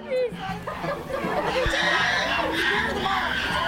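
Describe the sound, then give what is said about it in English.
Hungry chimpanzees scream at a zoo in Albuquerque, New Mexico: a chaotic, overlapping din of shrill screeches and hoots, with several pitched calls early on, then a steady, loud wash of shrieking. “That's the sound of some very hungry chimpanzees. That's a kind of ape.”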